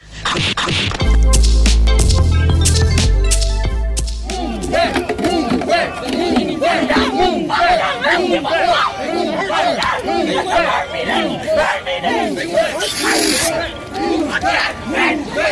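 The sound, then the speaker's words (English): A crowd of street protesters clashes with police in Washington DC at night, with loud, continuous shouting and yelling from many voices and sharp clattering knocks mixed in, sustained for the whole stretch. “that is the sound you hear of DC cops brutalizing protesters for the second night in a row”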